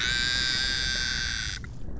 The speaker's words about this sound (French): Et non, ça, c'est la voix d'un bébé béluga qui appelle sa mère.